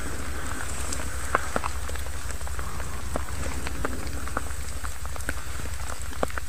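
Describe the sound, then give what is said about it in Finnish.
Steady rain falling in a dark forest at night during a night orienteering relay, a dense continuous hiss with scattered sharper droplet taps, heard alone without voices. “sade. Se jatkuu edelleen, mutta kyllä se tästä on helpottamassa jälleen”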